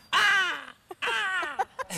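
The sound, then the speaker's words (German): A human voice imitates a black-headed gull, giving two drawn-out, harsh, harmonic cries that sag slightly in pitch, followed by a few short clipped calls. “Kannst du die Lachmöwe vormachen? Ich kann es mal probieren.”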